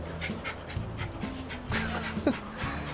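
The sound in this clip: Dog panting in quick, steady breathy huffs that keep a soft, even rhythm throughout, with a faint low steady tone underneath and no talk.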